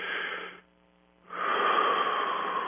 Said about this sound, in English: Just breathe like I'm doing here. So what I'm showing you is the breath